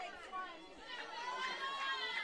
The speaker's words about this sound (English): Good crowd on hand here tonight. A lot of purple.